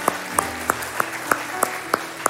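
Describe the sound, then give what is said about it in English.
A church audience applauds a family. Sharp, evenly spaced claps form a steady rhythm over a softer bed of clapping. “So can we give a round of applause to the Ball family here?”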